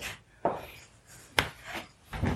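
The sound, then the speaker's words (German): A baking mixture for raisin buns, with milk and butter, is stirred by hand. It gives a few faint, soft scraping strokes spaced roughly evenly, and no talk is heard. “Ich rühre mal. Rühre mal. Ich rühre mal.”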